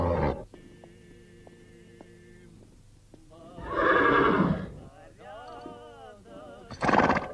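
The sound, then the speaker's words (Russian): A foal neighs as it wanders among the horses of White Guard cavalry, looking for its mother. Quieter wavering calls come first, then several loud, shrill whinnies burst out near the middle and at the end, with no talk. “В поисках матери жеребенок бродит возле лошадей белогвардейцев.”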